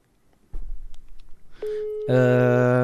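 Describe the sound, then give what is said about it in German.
Telephone line tones from a call placed on speakerphone: a soft thump, then a steady mid-pitched tone joined by a louder, buzzier ringing tone that holds to the end. “Live in der Folge wird jetzt Harald angerufen.”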